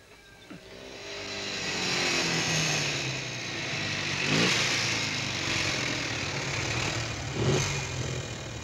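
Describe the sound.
A German car's engine labors and struggles to keep running. It holds a rough, steady mid-pitched drone with a couple of brief surges, and there is no talk over it.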